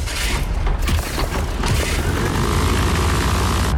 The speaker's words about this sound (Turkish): Sağ motor çalıştırma. Başla. Başladı.